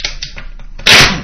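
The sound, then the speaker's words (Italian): Pieces of firewood being placed on a fire: a few hollow wooden knocks in quick succession, then a louder, rougher crash as another piece drops into place. “Ecco, adesso io finisco di mettere i legni. Ecco qua, tutta questa bella legna, ok.”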